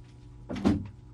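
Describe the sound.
An office door swings open and shut in one quick, soft motion, a single brief whooshing thud in an otherwise quiet moment.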